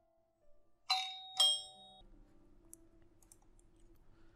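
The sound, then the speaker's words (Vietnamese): A doorbell pressed by someone standing outside a house gives two bright, ringing chimes in quick succession. Each tone decays briefly, then only a faint low background hum remains. “đứng bên ngoài bấm chuông”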